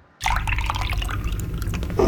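Liquid poured into a glass in one continuous gurgling stream that starts abruptly and runs steadily to the end, with bubbly splashing throughout.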